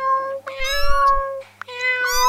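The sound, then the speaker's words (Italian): Cats meowing at a door in the morning, wanting to be let out: two long, loud, drawn-out meows with bright, steady pitch, separated by a short pause, over a low rumble. “vado ad aprire la porta ai gatti che vogliono uscire.”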